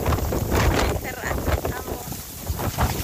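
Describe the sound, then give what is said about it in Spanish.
Strong gusting wind outdoors in Barranquilla roars and buffets the microphone with a continuous loud rumble. Repeated gusts swell and ease throughout. “Vamos a escuchar ahí el audio ambiente. Viento horrible, muy fuerte. Oye, está muy fuerte”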